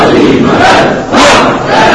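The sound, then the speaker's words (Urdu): Children and young people chant religious slogans as a loud crowd shout. It comes in two surging waves with a short dip between them, raw and forceful. “یہ بچے اور جوان جب نعرے لگاتے ہیں مجھے بڑا حوصلہ ملتا ہے.”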